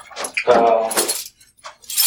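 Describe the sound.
Keys jangle and clink as they are handed over, a few short, bright metallic rattles spread across about two seconds, with a brief lull before a final jingle.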